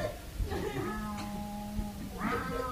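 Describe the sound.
A fierce cat gives a drawn-out, tonal meow, with another shorter call near the end; a voice can be heard around the calls.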